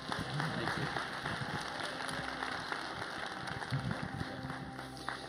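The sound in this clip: A church audience applauds to welcome a speaker: dense, continuous clapping from many hands forms a steady, fairly faint wash of sound with no pauses.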